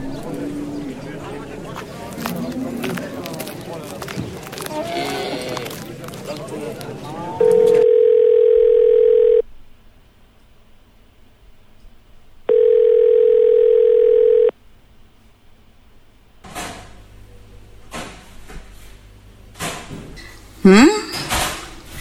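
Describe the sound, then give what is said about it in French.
A telephone rings with an incoming call in two steady electronic tones, each lasting about two seconds with a pause between them, set between busier background sounds before and after. “Un appel de la maman de Moussa.”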